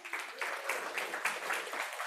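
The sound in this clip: Faint applause from a church audience welcoming a speaker up, a steady, even patter of many hands clapping together that holds at a constant level the whole time.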